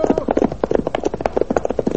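Galloping horse hoofbeats in a rapid, steady rhythm: many loud, evenly spaced thuds of the hooves drumming without pause.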